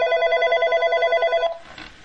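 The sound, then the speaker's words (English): A telephone rings with an incoming call to a radio show: one bright, rapidly pulsing electronic trill lasts about one and a half seconds, then cuts off into brief faint noise. “Hey, someone's calling in. I wonder who this could be.”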